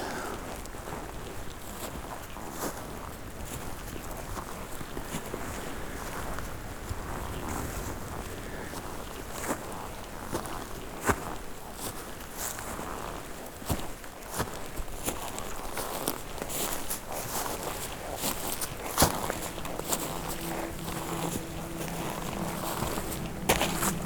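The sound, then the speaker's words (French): Footsteps of someone walking slowly and cautiously while listening for rutting deer: many soft, irregular steps and rustles over a constant windy hiss, with no talking. “On marche avec beaucoup de précaution et de silence.”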